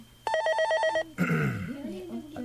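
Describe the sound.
A telephone at a shopping mall's customer call center gives one loud burst of rapid, trilling electronic ringing. A person begins speaking right after it stops.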